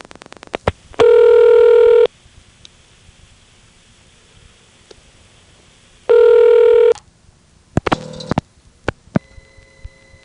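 Telephone number dialed through a Marietta exchange, routed over a T-carrier trunk to an electronic switch: quick clicks, then two long steady tones with a gap between, followed by scattered clicks and a brief buzzy burst.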